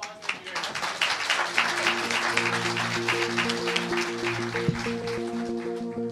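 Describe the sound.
Applause from the audience at a live author event at the Tattered Cover Bookstore in Denver, Colorado: a steady, dense wash of clapping for about six seconds, with a voice heard over it.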